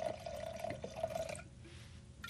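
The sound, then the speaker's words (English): Fumé Blanc wine from Napa Valley pours from a bottle into a glass, a faint trickling, gurgling stream for over a second that then drops away to near silence, with no voices. “There is another bottle over there. I think it's a Fumé Blanc. Pour us that one, and let's see how that one goes.”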